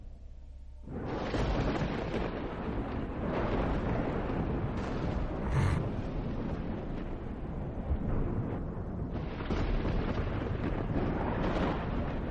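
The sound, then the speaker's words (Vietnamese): A lightning strike's thunder sound effect: after a quiet second, a broad rumbling roar swells in and holds for many seconds, rough and dense, with no voices. “Đột nhiên trên bầu trời một tia sét xẹt qua.”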